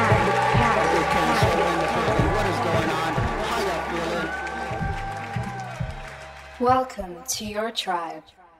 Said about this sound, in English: So please give a very warm welcome. The Dikkat.